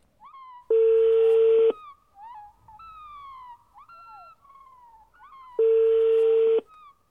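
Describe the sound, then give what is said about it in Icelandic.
Telephone tones as a call is placed: two long, loud, steady beeps about five seconds apart, separated by quieter gliding, warbling whistle-like tones. “Þá tökum við upp síman og ringjum í ljóðskáld Norður landi”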